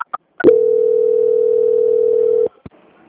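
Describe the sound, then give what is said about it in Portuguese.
A telephone line tone plays while a call is being transferred. After a few soft clicks, a single steady, loud, unwavering pitch holds for about two seconds, then stops abruptly and is followed by another faint click. “Só um momentinho que já vou transferir. Transferência.”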